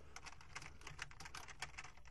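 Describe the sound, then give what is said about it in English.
Typing on a computer keyboard, with many quick, irregular keystrokes clicking softly on their own, with no talking. “I'm going to try and type that in here.”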